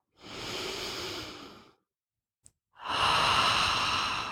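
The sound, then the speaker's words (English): Slow breath exhaled through the mouth with a relaxed jaw during a guided breathing exercise: a long, steady airy breath, a pause with a tiny click, then a second, stronger sustained rush of breath, with no talk. “And I want you to hear your breath coming out of your mouth, relaxing your jaw,”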